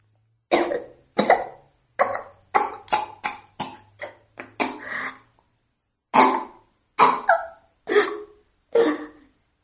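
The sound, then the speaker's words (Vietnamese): A woman coughs dry and hacking after being choked, holding her throat. Many sharp coughs come in a quick run, then after a short pause a few slower, harsher coughs follow, with no talking. “Cô ôm lấy cổ mình, ho khan đứng lên.”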